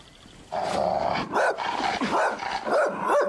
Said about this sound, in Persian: سگه وحشیه؟ بود ولی الان پسر خوبیه.